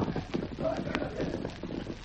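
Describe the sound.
Horses' hooves clip-clopping at a quick pace, a dense, steady run of hoofbeats that stays fairly loud throughout with no clear pauses.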